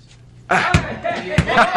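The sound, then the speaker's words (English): A ball is thrown and caught during a throwing lesson about using either arm, heard as two sharp smacks about half a second apart over a loud, dense background. “Here, throw me the ball. Now, watch.”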